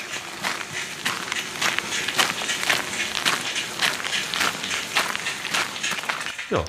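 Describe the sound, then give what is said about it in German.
Footsteps crunch on medium gravel in Brandenburg as someone walks in Adiletten slides worn with socks, many even, gritty steps in a steady walking rhythm, fairly faint and with no talk. “Hört ihr das? Den ja, mittelgroben Kies, die Adiletten mit Socken in Brandenburg.”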